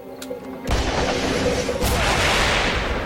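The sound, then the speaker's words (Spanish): A shoulder-fired rocket launched at a building bursts in with a sudden loud blast, then a dense, roaring rush of noise holds at full strength to the end. “Pone el cohete ala en su hombro. Y dispara al edificio.”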